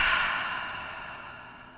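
A deep exhale through an open mouth in a relaxation breathing exercise, one soft, airy rush of breath that tapers steadily quieter over about two seconds.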